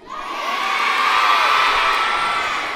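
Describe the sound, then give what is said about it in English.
Elementary school students cheer and shout together at a pep rally held for a yellow Labrador puppy, a loud, sustained roar of young voices that swells early and eases slightly at the end. “Welcome to our pep rally. Everyone excited?”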